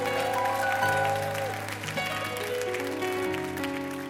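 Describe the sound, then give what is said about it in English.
Applause from a church audience giving a hand during a worship service: a steady, loud wash of clapping that holds evenly for about four seconds, with sustained musical tones running beneath it. “I want you to really make a great, great noise by giving the Lord a hand one more time.”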